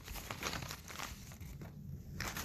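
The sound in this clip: Paper slips crinkling and rustling as a name is drawn from a hat, a soft, continuous crumpling with no talk.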